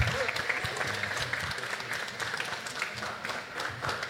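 An audience applauds after a presenter's startup pitch at a pitch competition event. The clapping is dense and continuous, swelling and easing slightly in loudness without stopping.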